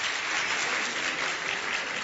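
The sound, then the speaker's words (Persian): An audience at a talk applauds with dense, even clapping that holds at a steady level throughout the short stretch, without any voices. “تشویق داشت.”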